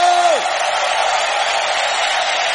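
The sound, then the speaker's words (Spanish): A church audience gives a loud, sustained shout of victory and jubilation, a thick crowd roar at a steady level. A single voice slides downward and drops out right at the start. “¿Cuántos pueden dar un grito de victoria, un grito de júbilo?”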